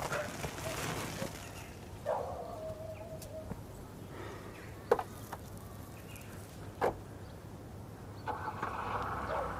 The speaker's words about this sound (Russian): Раннее утро. Машина едет по дороге.